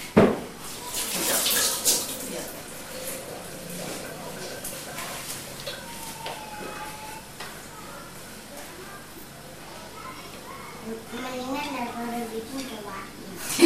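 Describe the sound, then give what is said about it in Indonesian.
Hands are washed under running tap water, a faint, steady splashing hiss that continues throughout while people talk over it. “Cuci tangan.”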